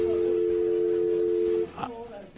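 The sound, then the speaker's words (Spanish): A dropped telephone call leaves a steady, unbroken electronic tone on the line. The tone cuts off abruptly after about a second and a half, and a voice follows briefly. “¿Aló? Se cortó la llamada con el doctor Ramos. Por favor, recupéremela”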